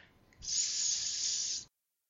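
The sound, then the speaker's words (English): A snake's hiss: one sustained, high, breathy hiss of just over a second that starts suddenly, stays level and loud, then cuts off sharply. “Ducks quack. Snakes hiss.”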